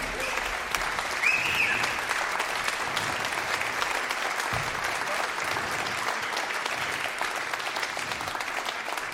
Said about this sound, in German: Und ja, ein Applaus vielleicht jetzt schon, das ist ganz nett. Pascal Schumacher! Pascal Schumacher!